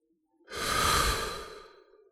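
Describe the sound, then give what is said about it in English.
A single deep, slow breath from a guided relaxation exercise swells and fades over about a second and a half. It is soft and airy, with no talking. “Whatever you're doing, close your eyes, take a deep breath in through the nose,”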